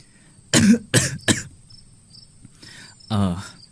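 A sick woman coughs in three sharp, loud bursts, then gives a softer breathy sound and one longer rasping cough, while crickets and other insects chirp steadily throughout.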